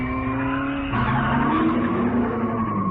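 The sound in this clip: A fast Shelby car accelerating hard, with a loud, steady engine roar that changes tone abruptly about a third of the way in and keeps growling without any talk.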